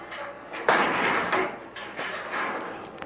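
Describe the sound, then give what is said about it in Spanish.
A prison cell door being opened, heard as a sudden loud clank followed by rough scraping and rattling noise that rises and falls in a few bursts. “Están abriendo la celda donde estabas tú”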